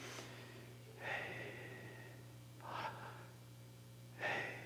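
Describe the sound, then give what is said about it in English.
Breathing in, three short, airy inhalations like sharp gasps, spaced about a second and a half apart over a low steady hum, with no talk. “Wouldn't it be just like God if he created breath where it somewhat resembles the sound, Yod, He, Vav, He. You breathe in.”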